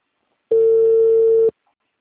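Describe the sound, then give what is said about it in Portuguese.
A telephone ringback tone plays on an outgoing call: one steady, mid-pitched hum lasting about a second, starting and stopping abruptly, with silence on both sides. “Tá tocando, eu tô ligando pra uma pessoa que me ligou.”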